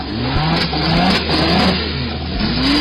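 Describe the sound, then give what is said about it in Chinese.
Engine of a 1966 Lamborghini Miura supercar revving, a loud, continuous mid-pitched roar whose note swells and dips and climbs again near the end. “1966年的兰博基尼 Miura， 这可是真正意义上的兰博基尼第一台超级跑车。”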